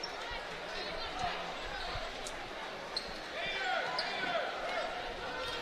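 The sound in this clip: A basketball is dribbled on the court during a game, its bounces landing a few times under continuous play-by-play talk.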